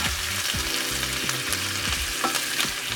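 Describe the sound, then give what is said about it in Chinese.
Onion simmers in a sauce in a pan over low heat, giving a steady sizzling, bubbling hiss with soft crackles throughout. No one speaks. “那火呢可以转小一点点，我们要慢慢的让这个洋葱呢吸收这个酱汁。”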